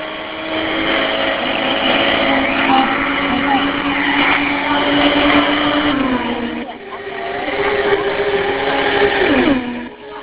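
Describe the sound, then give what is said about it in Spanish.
NASCAR race cars roar around the track in a steady, loud engine drone, with the pitch dropping twice as cars pass by. “Esta carrera está muy genial. Juan Pablo Montoya va en el tercer lugar. Sigue recuperando posición.”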